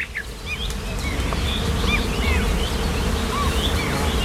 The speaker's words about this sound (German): Und so ungefähr tönt es übrigens auch in einem Moor oder in einem Feuchtgebiet.